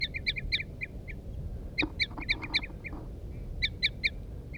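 Female and male birds call in alternation, the female giving a loud toop and the male a soft toop: short, high, repeated calls in quick clusters of several notes, separated by pauses over a steady low background rumble.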